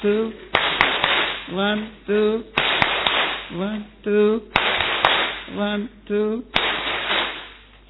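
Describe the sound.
Audience clapping a counted rhythmic sequence: a few sharp, crisp hand claps, often in close pairs, spaced between stretches of a voice talking in a steady rhythm.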